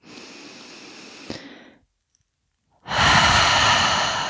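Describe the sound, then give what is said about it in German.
Deep breathing during a guided relaxation exercise: a softer, airy breath in through the nose, a short silence, then a loud, rushing breath out through an open mouth. There is no talk. “Nimm einen tiefen Atemzug ein durch die Nase, durch den geöffneten Mund aus. Und roll einmal die Schultern hoch zu den Ohren, atme tief ein und aus durch den geöffneten Mund. Und noch einmal.”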